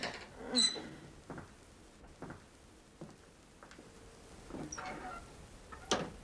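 Fumbling at a door latch (a bolt), heard as faint scattered clicks, taps and light creaks with brief gaps between them, all quiet and without voices.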